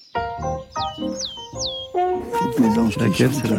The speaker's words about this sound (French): C'est une mésange boréale. Je pense que c'est la boréale que j'adore. Et qui là fait son petit cri de son petit chant en fait territorial